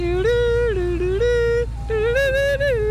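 An ice cream truck plays its electronic jingle, a bright, tinkling melody that steps up and down in pitch over a steady low drone. The tune plays alone and fairly loud, with no voices.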